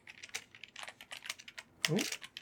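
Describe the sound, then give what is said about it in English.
Rapid, quiet clatter of keys as a search is typed on a computer keyboard, many light, irregular taps with one heavier burst near the end. “Go onto YouTube. Type in No Mercy exhibition music.”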